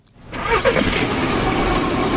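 A car engine starts: a few quick cranking bursts catch into a steady, mid-pitched idling rumble that continues evenly to the end.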